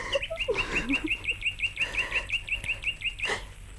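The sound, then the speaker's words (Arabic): A small bird chirps as a sound effect in a radio drama: a rapid, steady series of many short, high chirps at an even pace, fairly loud and alone without voices. “تعال يا عصفور يا صغير، يا طائر ورمل. أنا عصفورة زيك، اسمي تشكر”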